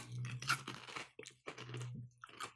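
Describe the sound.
Crunching bites on Lay's Max strong chilli and lime potato chips, quiet crisp crackles in several bursts separated by short pauses, with no talk.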